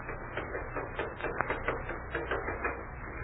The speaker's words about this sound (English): looking for those letters on that old typewriter. It worked pretty well the last time I used it.